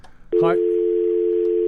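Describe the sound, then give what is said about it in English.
Steady telephone dial tone from a malfunctioning phone bank: after a brief clicky burst at the start, a loud, constant low tone runs unbroken to the end. “The phones are out of order. Oh, that would be a shame. Malfunction on the phone bank.”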